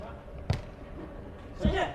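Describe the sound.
A volleyball is struck on a serve during a match: two sharp hits about a second apart stand out over a steady background din.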